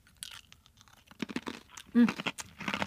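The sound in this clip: Crisp crunching of a bite into a Jules Destrooper butter cookie, a few brittle cracks mixed in with people talking.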